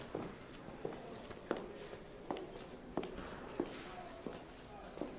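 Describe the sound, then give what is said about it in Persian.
Footsteps of two people climbing stairs: eight firm, evenly spaced treads in a steady rhythm over a low, muffled background. “از پله ها میرن بالا.”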